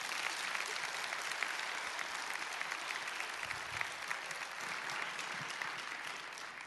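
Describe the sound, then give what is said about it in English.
Applause from a church audience welcoming a musician to the stage, a steady, dense roar of many hands clapping that holds at an even level from start to finish with no break. “Let's all put our hands together and welcome Jimmy Bratcher this morning.”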